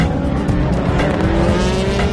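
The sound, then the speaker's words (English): Roaring race cars cross the line at the start of the 76th Le Mans 24 Hours, a field including Peugeot and Audi prototypes. Engines blend into a continuous, loud, steady roar that does not let up for the whole clip. “cars lining up on the grid as they've done their first lap and they're off. The start of the 76th running of the Le Mans 24 Hours. Something like 24,000 horsepower crosses the line.”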